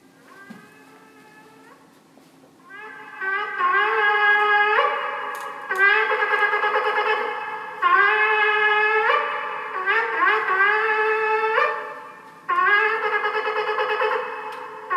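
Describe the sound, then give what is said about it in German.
A shofar horn is blown in a series of loud, brassy blasts, each opening with a scooping rise in pitch. Some blasts are long and steady, others are broken into shorter notes, after a softer opening tone. “wo alle drei verschiedenen Möglichkeiten, das Schofarhorn zu blasen, präsentiert wird. Ich sage, das erste, ja, wir hören mal das erste an.”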